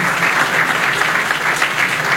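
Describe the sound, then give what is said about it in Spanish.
Applause at a town anniversary ceremony honoring local schools: many hands clap in a dense, even clatter, loud and steady throughout with no voices standing out. “Y aplaudimos a nuestras queridas”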